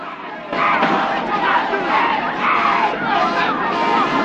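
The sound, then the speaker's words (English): A crowd shouts and struggles as police drag people out of a store under the South Bronx People's Party sign and into a police van. The loud, continuous yelling starts about half a second in. “Police are dragging people out of the store under a sign reading the South Bronx People's Party. The crowd struggles as they're taken to a police van.”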